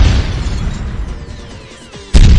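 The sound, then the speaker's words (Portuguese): A small firecracker goes off as a sudden, loud, sharp burst near the end, after a couple of seconds of steady rough background noise. “É uma bombinha”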